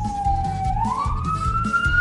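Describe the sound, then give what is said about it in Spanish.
Police patrol car siren sounding as it passes: a loud, sustained wailing tone that climbs slightly in pitch partway through, over a steady low rumble. “Está pasando la patrulla.”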